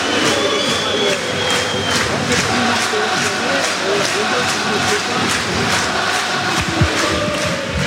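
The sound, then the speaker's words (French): Football crowd noise at the Stade Abbé Deschamps during a match: a loud, dense, continuous roar that stays steady throughout, with no clear breaks or peaks. “La météo n'est pas là, mais le public est bien présent. Écoutez le Stade Abbé Deschamps.”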